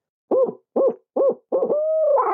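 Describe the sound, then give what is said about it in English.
An owl hooter, blown with the hands opened during the roll, gives three short hoots and then a longer wavering rolling call whose pitch rises at the end. It is a turkey-locating call with no talk over it. “The biggest mistake I see people when they're using the owl hooter is they open their hands when they do that roll and it sounds like this.”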